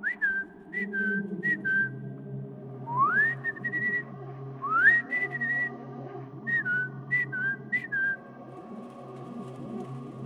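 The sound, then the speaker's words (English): A person whistling in imitation of birdsong, with short chirps and rising, warbling notes separated by pauses, over a low, steady hum. “Do they make sounds like this? I ask, then do my best attempt at whistling. I'm not very good at it.”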